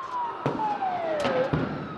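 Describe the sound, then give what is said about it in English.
An ambulance siren wails during street clashes with tear gas on a square in central Athens, its tone sliding steadily downward while a few sharp bangs cut through the noise. “An ambulance is just driving onto Syntagma Square through clouds of tear gas to try and pick up a couple of people who've been wounded in these clashes.”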